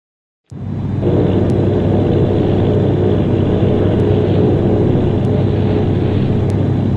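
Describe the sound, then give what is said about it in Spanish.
Bomber aircraft engines drone in flight from a formation of eight bombers. The loud, low, steady roar starts abruptly and holds unchanged to the end, with no voices. “Aquí el bombardero V-843, procedente de Bayonne, Nueva Jersey. Al mando el teniente Bob, con ocho bombarderos, en vuelo informando al comandante Fairfax en Langanfield.”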